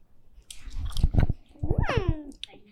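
Tasting and chewing a green piece of food, with short bursts of moist crunching and smacking mouth noises, followed by a brief voiced hum that rises and falls in pitch.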